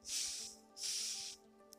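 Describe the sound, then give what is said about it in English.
A deep breath drawn in through the nose during a slow breathing exercise: two soft, airy hissing inhales, each about half a second long, separated by a short pause, with a faint low hum underneath. “we're gonna take a deep breath in through our nose, hold that for 15 seconds, and then release through our mouth slowly”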